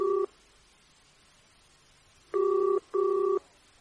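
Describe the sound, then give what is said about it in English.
A telephone rings at the far end of a call placed from a phone booth at night. The end of one ring is heard first, then a pause and a quick double ring, all fairly faint with no voices. “I dialed a number and listened to it ring and ring and ring.”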